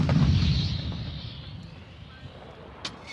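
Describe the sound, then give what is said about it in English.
A deep artillery boom from a salvo fired during the Summer Shield international military exercise in Latvia. It hits loud at the start, then rumbles and fades, with a faint sharp crack near the end. “Soldiers practice shooting artillery during one of the regular international military exercises in Latvia.”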